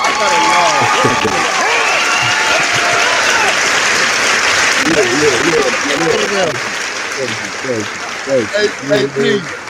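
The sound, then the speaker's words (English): Applause as guests are welcomed on a talk show, a steady wash of clapping running for several seconds while men's voices talk over it, the clapping thinning toward the end as the voices take over. “We gotta get the applause thing.”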